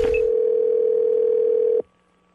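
Telephone dial tone as a prank call is about to be placed: a single steady, mid-pitched hum held for nearly two seconds, then cut off abruptly into near silence.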